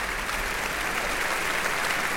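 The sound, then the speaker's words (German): Applause from an opera audience for the extras and dancers: continuous, thick clapping from a large crowd at a constant level, with no voices. “Und hier gibt es jetzt zunächst Applaus für”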